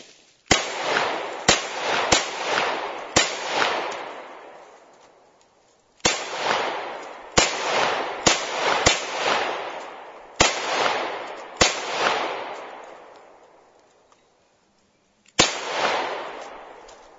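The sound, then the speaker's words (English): Gunshots at a shooting range aimed at a target: eleven sharp, loud cracks in irregular groups, each trailing off in a decaying echo, with a longer pause before the last shot. “So I'm gonna back up a bit. The gunshots will get louder, but maybe you'll hear the ping”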